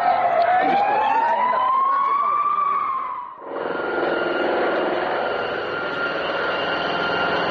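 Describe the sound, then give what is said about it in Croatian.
Street ambience on Kneza Miloša street just after a motorcade carrying the US vice president has passed. A wavering, siren-like tone sounds for about three seconds, then gives way to a steady, broad rumble of traffic and engines. “Atmosfera u ulici Kneza Miloša neposredno po prolasku kolone sa američkim potpredsjednikom.”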